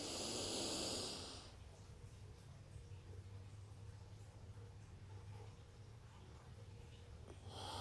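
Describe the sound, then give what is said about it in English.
A deep breath in during a guided breathing exercise, a loud, airy hissing inhalation filling the first second, followed by a quiet stretch of low background noise and another breath starting to swell at the very end. “Really, really depleting the body of air at this moment. Deep inhalation in.”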